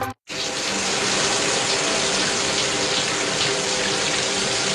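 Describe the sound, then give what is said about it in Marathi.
Water runs from a tap into a tank in a loud, steady rush that continues without a break after a brief pause at the start. “अरे अर्धा तास झाला पाणी वाहत आहे, टाकी बंद कर.”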